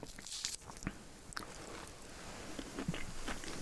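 Someone bites into and chews a segment of an early-ripening, seedless satsuma mandarin, making soft, faint, moist crunching and squishing sounds. A few sharper bites stand out among them.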